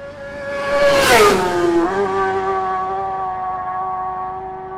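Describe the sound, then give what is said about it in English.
Bikes pass by a garden wall with a loud engine whine that swoops sharply down in pitch as they go by, then settles into a steady, lower drone that carries on to the end. “totally unperturbed by the bikes”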